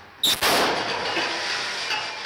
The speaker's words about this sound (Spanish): Ahí explotó. Hizo un cañón.